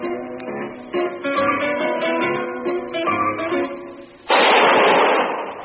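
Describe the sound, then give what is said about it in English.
A single loud gunshot from a radio drama, the shot that kills Harry Lime in a sewer beneath Vienna, cuts off a plucked zither melody. The broad, harsh blast rings out abruptly near the end and its noisy tail slowly fades. “That was the shot that killed Harry Lime. He died in a sewer beneath Vienna”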